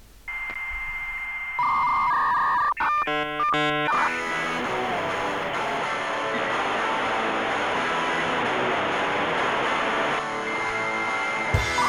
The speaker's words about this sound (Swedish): Nu kör vi jingle!